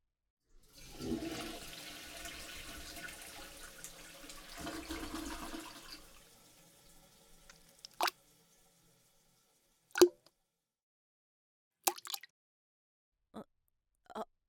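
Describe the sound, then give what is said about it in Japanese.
A toilet flushing away a large stool: a loud, steady rush of water lasting about five seconds, then quiet broken by a few short, sharp clunks and drips. “デカブツをさっさと流してっと。”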